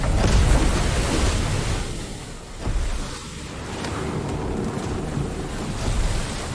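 Ocean waves surge and wash around a ship at sea, with steady wind buffeting the microphone. The rushing water noise is continuous and fairly loud, with no voices.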